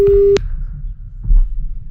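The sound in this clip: Telephone busy signal: a single short, steady beep rings out at the very start, then gives way to quiet, low line noise.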